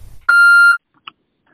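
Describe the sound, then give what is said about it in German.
An answering machine gives a single steady electronic beep signalling a new message. The tone is bright and about half a second long, followed by a brief faint blip and near silence. “der Anrufbeantworter scheint ja noch zu funktionieren.”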